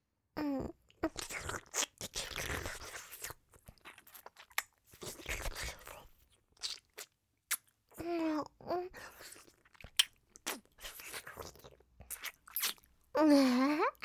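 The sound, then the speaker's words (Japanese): Wet licking in an ASMR roleplay, with many soft smacking bursts separated by short silences and interspersed with brief voiced sighs. “夢のベロで綺麗に舐めとってあげる。”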